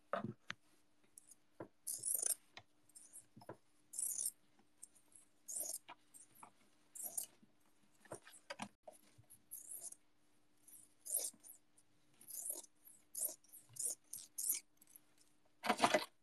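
Window screen material being cut to size for a drainage layer: many quiet, short, crisp snipping and rasping sounds in an irregular rhythm, with brief pauses between them.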